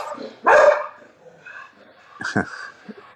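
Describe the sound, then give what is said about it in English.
A pet dog barks while a conversation carries on: one loud, sharp bark, then a softer, shorter bark a couple of seconds later. “Excuse me, that's my dog.”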